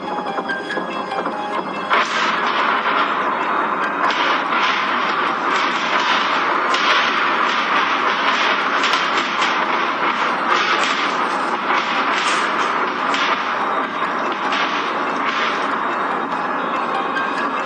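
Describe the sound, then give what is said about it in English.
Gunfire in a battle-scene sound effect depicting a ground invasion of Taiwan: a relentless barrage of many sharp cracks and thumps over a constant, loud rumbling roar, with no voices. “They're suppressing fire. Stay together. Run.”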